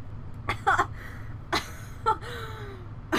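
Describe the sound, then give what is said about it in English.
Choking after inhaling a drink: a few sputtering coughs and gasping breaths spaced irregularly, each short and fairly loud against a quiet background. “I looked away and then I looked back and you were choking. Yeah. Because I inhaled my drink.”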